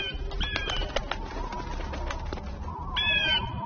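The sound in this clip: A flock of vultures flaps off in a quick series of fluttering wingbeats and whooshes, with short bird-like chirping calls near the start and again at the end.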